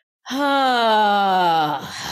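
A short voiced growl, made to release tension, rings out as one sustained, throaty tone lasting about a second and a half. Its pitch sags slightly before it fades.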